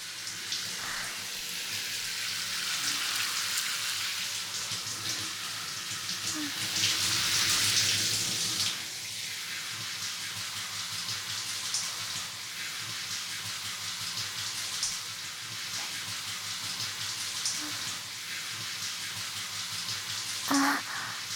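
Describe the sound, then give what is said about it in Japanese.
Hot water poured onto slime makes steady watery trickling and splashing the whole way through, swelling into a louder, fuller gush partway in before settling back to a constant stream. “それでは、お湯をかけていきまーす。”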